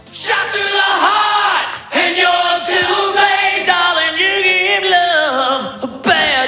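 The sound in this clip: A concert crowd in New York sings and cheers together, sustained voiced notes that rise and fall in unison, loud and steady, with brief breaks and a few shouts above the mass of voices.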